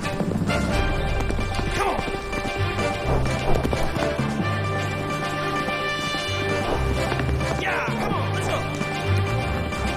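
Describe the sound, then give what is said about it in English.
Hooves of a black horse galloping off through trees drum loudly and continuously through the whole stretch, layered over dense sustained tones. “A black horse stomps around. Yeah! The horse takes off with Aaron in pursuit.”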